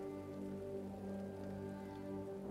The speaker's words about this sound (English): Rather rainy out here in Stormford, isn't it?